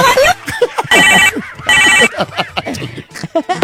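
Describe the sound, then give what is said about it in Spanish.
A telephone ringing: two short, harsh electronic ring bursts, each a fraction of a second long, with lively talk before, between and after them. “Qué feo timbre el teléfono, ¿verdad? Yo no sé por qué suena así.”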